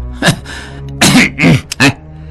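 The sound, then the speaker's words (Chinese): A few short, loud throat-clearing coughs, performed by a voice in a dramatized reading, come as separate bursts in a tense scene before a silent crowd. “达庆咳嗽了一声”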